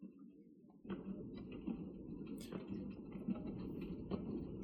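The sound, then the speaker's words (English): A slow train rolling along: a steady low rumble that swells in after a quieter opening, with faint clanks and squeaks scattered through it. “The train up from Duchesne is slowly ambling its way toward the capital city of Emrys.”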